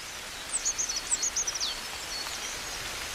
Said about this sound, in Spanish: En pleno invierno, con el frío, un carbonero garrapinos está cantando como anticipándose a la